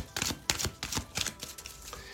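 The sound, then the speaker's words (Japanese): Cards from a dragon-themed oracle deck handled and one drawn: several brief, crisp papery taps and shuffles in a quick irregular run, faint and alone with no talking. “ではそんな行動するためのアドバイスを龍神カードからね、1枚引きたいと思います。”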